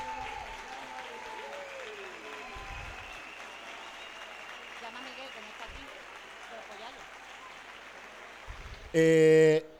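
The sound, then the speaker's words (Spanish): Crowd applause at a street demonstration for social movements, a steady dense clapping that carries on for several seconds with a voice briefly over it at the start, and a short loud tonal blast cutting in at the end. “Un fuerte aplauso para los movimientos sociales.”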